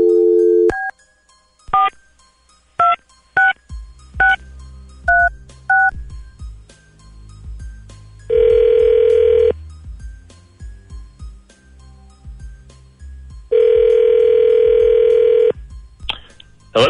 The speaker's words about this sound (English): And dialing at random.